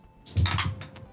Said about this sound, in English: next turn, you roll two dice to wake up.